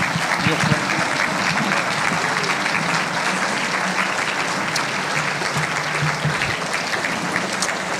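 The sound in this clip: Applause from an audience seated around tables as they stand to welcome a group of men, sustained and even clapping that fills the whole stretch without a break.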